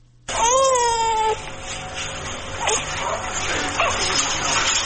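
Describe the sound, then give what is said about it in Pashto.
An infant's cry, from newborn conjoined twins just separated by surgery at a hospital in Kabul, opens with one wavering, high wail lasting about a second. Talk continues over a steady background afterward. “تفصیل په دې راپور کې چې د ماشوم په غږ پیلېږي.”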